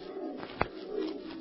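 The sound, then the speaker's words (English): A screech owl calls in a low, soft tremulous hoot, steady and fairly faint, with one brief sharp click in the middle. “Yes, that was just an old screech owl. There it is again.”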